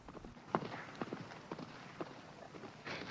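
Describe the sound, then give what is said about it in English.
A horse gallops with a rider on horseback, its hoofbeats landing as faint, fairly regular clip-clop thuds over a steady noisy background. “Appearing Day gallops over on horseback.”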